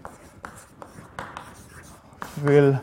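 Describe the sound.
A pen scratches on paper as someone writes a German welcome greeting with an exclamation mark. The strokes come as a series of short, dry, uneven scrapes at a soft level.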